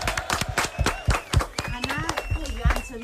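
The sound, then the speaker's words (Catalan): Scattered clapping for parents taking part in a family game show, a few uneven, sharp claps mixed in with people talking. “Un aplaudiment per a aquests pares”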